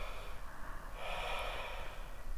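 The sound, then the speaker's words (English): Deep inhaling during a breathwork exercise, a steady, airy breath hiss that swells noticeably stronger partway through and holds to the end, with no talking. “relax your exhale. Straight away, inhale now. Relax. Inhale again.”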